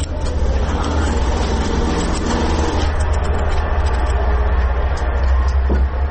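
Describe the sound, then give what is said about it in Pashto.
Sewing machines stitching woollen pakol caps and chapan coats in a tailors' shop in Asadabad, giving a loud, continuous mechanical whirring and rattling that runs without a break. “هر یو په خپل ماشین او کار سر ټیټ کړی او مخې ته پراته تاو شوي پکولونه ګنډي.”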